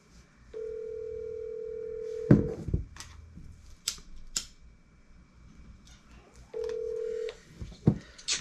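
Ringback tone of an outgoing phone call: a long steady mid-pitched tone, a pause with a few clicks and handling knocks, then a second shorter tone.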